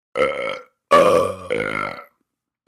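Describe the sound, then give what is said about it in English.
Loud, drawn-out voiced burps from someone who ate fruitcake for lunch: three long, rumbling eructations in a row, with a fourth just beginning at the very end. “it's not my fault, it was all that fruitcake I had for lunch. Oh, I guess you're right. I've got the fruitcake burps, too.”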